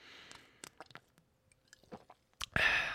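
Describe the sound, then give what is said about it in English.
Someone takes a sip of a drink: faint scattered mouth clicks and small wet sounds, then a short, louder slurping burst near the end. “as I take another sip here”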